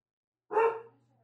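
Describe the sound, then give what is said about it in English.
A dog barks once as a delivery person approaches: one short, fairly faint, throaty bark that fades quickly into a low hum. “Let's just hold on a minute while he barks that out while the pizza man is coming.”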